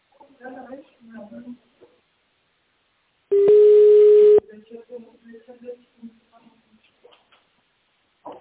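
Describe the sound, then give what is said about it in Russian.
A telephone ringback tone plays as a call is transferred to an operator: a single steady, mid-pitched tone about a second long, with speaking voices before and after it. “Вызов переводится к оператору. Пожалуйста, подождите.”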